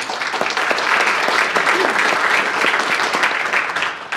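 Applause from an audience welcoming the moderator of a panel discussion on rural healthcare: dense, steady clapping that holds loud across the whole clip and eases slightly at the end.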